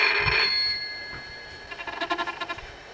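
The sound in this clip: A telephone bell rings in a rapid burst of short, bright, evenly spaced trills in the second half, after a brief muffled knock and a quieter lead-in; no voices are heard.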